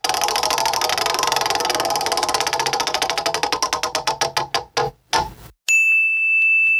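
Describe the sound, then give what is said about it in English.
A prize wheel spinning, its rapid ticking steadily slowing into widely spaced clicks until it stops, followed by a bright, sustained ding chime. “go ahead and spin that wheel. Once again, we submit ourselves to the wheel.”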